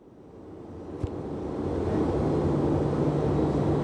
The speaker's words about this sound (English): So we're now on final approach. We're heading down to land on board the USS George Washington, a nuclear-powered aircraft carrier. When we do land, it will be an arrested landing.